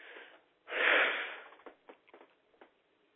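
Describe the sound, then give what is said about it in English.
A single long, deep breath is drawn in. It swells and then slowly fades, and a few faint short breathy sounds follow it. “And take a big deep breath.”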